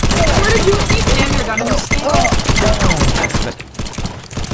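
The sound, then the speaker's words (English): Rapid automatic fire from an MG4 machine gun in a video game, loud sustained bursts of rattling shots that break off briefly near the end, with voices talking over the gunfire. “Oh shit, he's got an MG4.”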